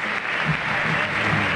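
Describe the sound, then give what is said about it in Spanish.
Spectators at River Plate's stadium applaud as a banner of Messi lifting the World Cup is unfurled, a steady, dense wash of clapping from a large crowd. “acaban de bajar una bandera con Messi levantando la Copa del Mundo en Qatar. ¿Cómo te vamos a extrañar, Pulga Atómica? Walter, ¿cómo no va a aplaudir el público de River?”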